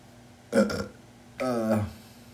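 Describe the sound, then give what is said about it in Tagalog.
Two short, throaty burps, the second longer and fuller than the first, rising loud out of a quiet background with no talking. “Yung tunog pa lang na narinig nyo, burp yun.”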